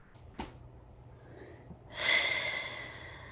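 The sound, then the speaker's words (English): A deep, breathy intake of air as a speaker pauses mid-talk, a soft rush that swells and then slowly fades, preceded by a small faint click. “had to pause for a second and breathe.”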